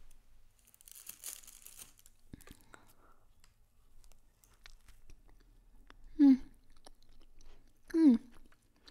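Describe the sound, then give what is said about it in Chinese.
Chewing on a steamed bun, with a burst of crinkling or tearing early on, then soft, steady mouth noises and two short vocal sounds near the end. “这个包子好吃啊，还是那家店的吧？”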